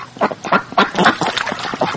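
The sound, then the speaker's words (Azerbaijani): Geese honk and cackle at a dried-up muddy pond in a yard, with a quick series of harsh, nasal calls coming in irregular bursts. “Həyətlərindəki suyu qurumuş, lilli gölməçədə qazlar otarır.”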